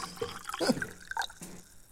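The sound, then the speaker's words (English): Water splashes and gurgles into a water bottle as it is filled, in a few irregular, faint bursts of dripping and trickling over a couple of seconds. “Oh, sure, yeah, fill up your water bottle. That's fine.”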